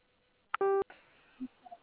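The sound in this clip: A single telephone keypad tone sounds as zero is pressed in an automated phone menu: a short, steady, dual-pitched beep after a faint click, followed by a few soft, quiet blips.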